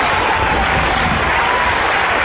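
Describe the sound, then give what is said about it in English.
A college crowd applauds and cheers enthusiastically in a dense, steady wash of clapping and voices that holds at the same loudness throughout, with no single voice standing out. “The Pandering College crowd reacted with such enthusiasm”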